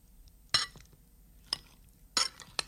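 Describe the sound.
Potato salad with parsley is mixed in a bowl. A utensil clinks sharply against the dish four times amid soft stirring and scraping.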